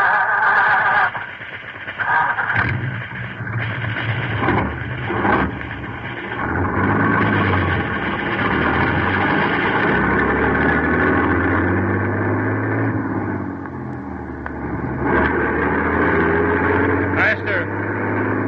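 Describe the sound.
A half-track military vehicle's engine runs steadily, a low, continuous rumbling drone with a few brief dips in loudness, while people talk over it.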